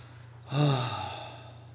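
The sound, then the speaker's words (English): A speaker imitates a wistful groan with a single breathy, low vocal groan that swells quickly and then trails off slowly, heard alone. “That's the groaning.”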